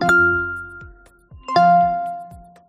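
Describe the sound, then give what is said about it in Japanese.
A hidden startup chime from an iPhone: two bell-like tonal strikes with rich overtones, each ringing out and slowly fading, the second holding a clear sustained note longer than the first. “iPhone はずっと起動音じゃないと思ってね、我々は使ってきたんですが、それを隠し機能で実はそういうのがあるというツイッターでマーティン・ノベルさんという方がおっしゃってて”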